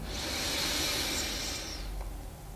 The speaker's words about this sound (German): Nimm den dritten tiefen Atemzug und atme ein.